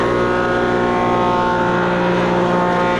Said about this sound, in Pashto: څوک په همدې ماشینونو لوړې ژورې هواروي، او څوک هم جوړو شوو وسایلو ته رنگ ورکوي.